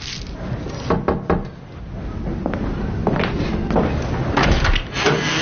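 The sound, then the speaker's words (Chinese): A tin of malted milk powder is opened with a few sharp knocks and clacks of the lid early on, followed by scraping and rubbing sounds and further clicks, at a moderate level without talk. “我上次给你拿的麦乳精，你怎么都没喝呀？ 啊，忘了，想不起来了。 我给你打开啊，记着喝。”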